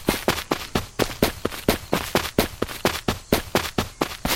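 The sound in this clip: Gunfire from a video game weapon: many sharp, punchy shots fired in a quick, evenly spaced rhythm, each crack decaying briefly before the next, loud and continuous with no talk over it.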